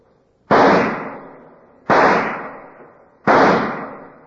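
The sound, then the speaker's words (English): Three loud pistol shots from an agent firing his last rounds at an indoor pistol range in an office building basement. Each is a sharp bang with a long ringing decay, evenly spaced, with no voices. “an FBI agent is practicing at an indoor pistol range. He is firing his last rounds as Agent Jim Taylor approaches.”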